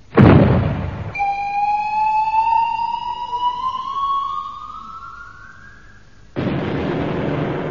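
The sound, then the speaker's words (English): A ship's cannon fires aboard a Tudor-era vessel: a sharp, loud blast, then a long, thin whistle that slowly rises in pitch, ending in a second burst of rough, roaring noise. “Right. Master Gunner, fire!”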